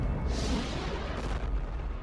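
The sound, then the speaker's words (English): An explosion heard as a continuous, deep, roaring rumble. It spreads across low and high pitches and holds steady for about two seconds without separate blasts. “Exploded just like the Death Star.”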